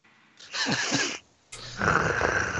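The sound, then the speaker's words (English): A person imitates snoring with the voice, during a tabletop role-playing game in which a character has passed out: two long, rough, rasping snore sounds with a short pause between them. “I snore.”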